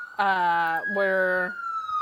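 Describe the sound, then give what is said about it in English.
A police siren wails as a steady, bright electronic tone with one brief pitch dip in the middle. It sounds alone and loud for about a second and a half. “Whoa, it's the sound of the police.”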